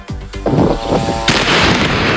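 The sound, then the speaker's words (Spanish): Gunfire is exchanged between Hezbollah and Israeli forces at night in Lebanon. A few sharp, loud reports crack in quick succession, then give way to a dense, roaring burst of overlapping blasts that stays heavy to the end, with no voices. “Este es el sonido de lo que ha pasado esta noche en el Líbano. Ha habido intercambio de fuego entre las dos partes, entre Hezbollah e Israel.”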